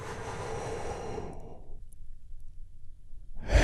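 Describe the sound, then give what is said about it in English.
A big, deep breath taken slowly during a calm breathing exercise. A long, airy, breathy rush lasts nearly two seconds, then fades into quiet. A fresh breath begins loudly at the very end. No one speaks. “take another big, deep, healing breath with me right now.”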